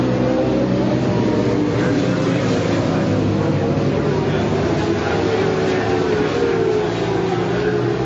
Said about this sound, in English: So you can hear the bikes going by.